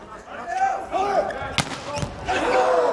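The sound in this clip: A single sharp smack as a volleyball is struck on a serve, a short, bright impact heard under a commentator's steady talk.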